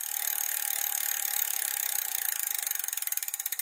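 A prize wheel spins on a comedy game show, making rapid ratcheting clicks that at first blur together, then slow and spread into distinct ticks as the wheel loses speed.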